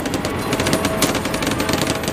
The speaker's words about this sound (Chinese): 步兵开始行动了，他们奋力前行，但由于机枪火力的压制，他们无法渡河，到处都是机枪的关卡。